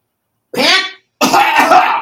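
Two harsh bursts of throat clearing and coughing, separated by a short silence, the second longer and rougher than the first.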